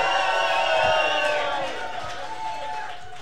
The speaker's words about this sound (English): As you can hear, we do have a live audience with us. Welcome, live audience.